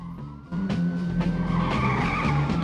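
A car swerving with its tires skidding: a sudden, sustained high tire squeal that begins abruptly and holds steadily over a low engine rumble until the end.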